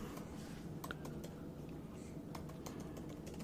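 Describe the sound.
Faint typing on a computer keyboard: light, irregular key clicks scattered over a low, steady background hum.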